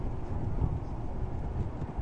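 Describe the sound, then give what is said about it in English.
Wind blowing on a cold, breezy day at a baseball game, a steady low rumbling buffet with no voices. “Very windy, breezy day.”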